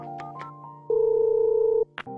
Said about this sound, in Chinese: 于是他赶紧打通了前台的电话。